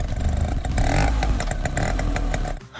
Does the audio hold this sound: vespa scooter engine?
yes